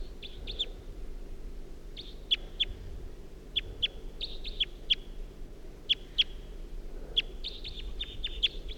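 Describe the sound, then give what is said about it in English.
A wild bird calls with many short, high-pitched chirps repeated in irregular pairs and bursts over a low, steady background rumble. “Wild bird.”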